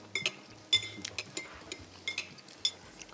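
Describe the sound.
Cutlery on a plate as a knife cuts through the middle of a small filled dish: a series of light metallic clinks and scrapes in an uneven rhythm, quiet and with no talk.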